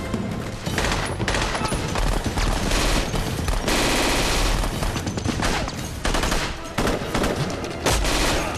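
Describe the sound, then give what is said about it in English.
Machine gun fire rattles through a firefight against heavily armed troops in a tunnel: loud, dense, rapid bursts that run almost without pause across the whole stretch, with many overlapping shots and heavy booming impacts. “O'Connor, handy with a machine gun, takes out a soldier.”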